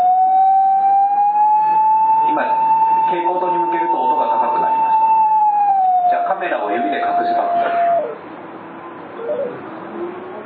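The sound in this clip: A smartphone app that converts light into sound plays an electronic tone that is higher in pitch when the phone points at brightness. A steady pitch holds, then steps lower and cuts out, while a voice talks over it.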